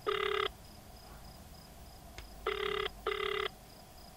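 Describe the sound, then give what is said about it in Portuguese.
A telephone rings with a shrill electronic trill in three bursts, one alone and then two close together, over a faint steady hiss with no talking. “Sem outra saída, decide ligar para Fifi.”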